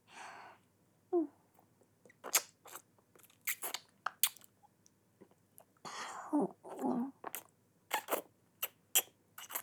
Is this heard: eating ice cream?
yes

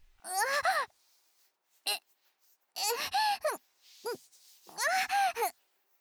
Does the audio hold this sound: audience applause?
no

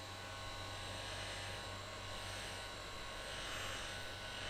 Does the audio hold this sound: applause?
no

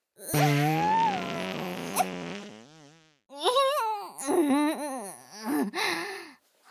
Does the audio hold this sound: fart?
yes

